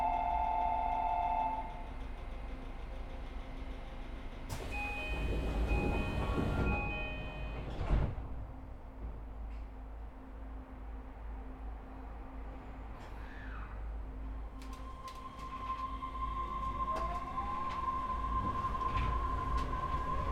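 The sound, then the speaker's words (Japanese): A Tokyo Monorail local train bound for Hamamatsucho runs with a steady low rumble throughout, joined by clattering mechanical noise partway through and later by a rising electric whine. “乗車のモノレールは普通列車浜松町行きです。”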